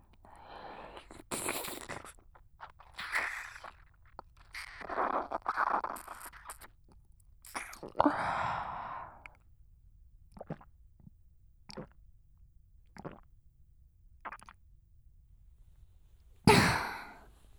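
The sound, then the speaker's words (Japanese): Drinking and swallowing of liquid gathered up by hand: soft, wet gulps and slurps with breathy exhales and scattered small clicks, all faint and irregular, with no talking. “手でかき集めて、いつものように飲ませていただきます。飲む音をお聞きください。”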